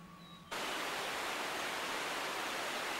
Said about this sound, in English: Now the two men are walking beside a fast-flowing river.